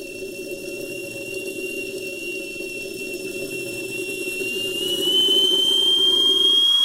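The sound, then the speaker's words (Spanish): Continuous roar of a flying airplane's jet engine, a broad steady rumble with a thin high whine above it, swelling louder toward the end as the whine edges upward. “un amigo mío, mío, mío volaba en avión, en avión.”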